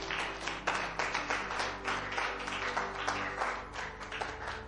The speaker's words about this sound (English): Clap your hands for God.